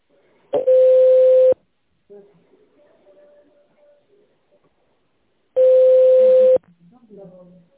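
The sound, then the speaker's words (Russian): Telephone ringback tone while a call connects: two loud, steady, low-pitched tones, each lasting about a second, separated by a gap of several seconds that holds only faint, low-level sounds. “Соединение устанавливается. Пожалуйста, оставайтесь на линии.”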